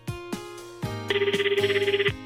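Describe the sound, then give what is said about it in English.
A telephone rings early in the morning with an electronic ringtone: a few low tonal notes, then a rapid, bright warbling trill that pulses steadily for about a second before stopping. No one speaks. “Just after consecutive holidays, Ken is woken by the phone.”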